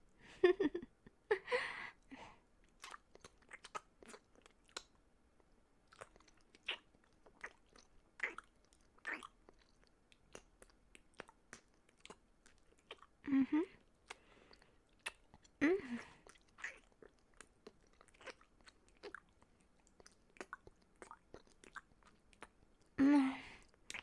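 Chewing and biting food while tasting it, with quiet wet mouth sounds and soft crunches spread irregularly throughout, broken by a few louder bursts of biting.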